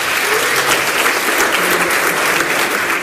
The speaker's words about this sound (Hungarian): akinek egy nagy tapsot szeretnék kérni